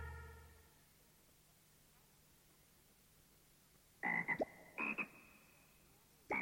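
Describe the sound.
A frog croaks after a long quiet stretch, giving a few short bursts of rapid, nasal calls that stand out loud and abrupt against a faint background hiss.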